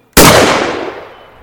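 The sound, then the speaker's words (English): A single gunshot rings out from fields in the countryside: one sharp, loud crack with a sudden onset, followed by a long, steadily fading rumble lasting over a second, with no voices. “a single shot rang out from the fields beyond.”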